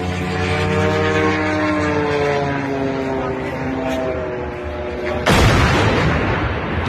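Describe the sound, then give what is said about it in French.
A drone crashes into a large construction crane in a suburb of Moscow: a loud, steady buzzing engine drone whose pitch slowly falls, then an abrupt, loud impact blast followed by rumbling noise. “Voilà, et ça, c'est le son d'un drone qui percute une grue de chantier.”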